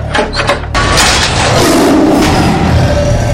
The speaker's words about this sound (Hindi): पिंजरा खोलते ही बाघ दहाड़ कर उछला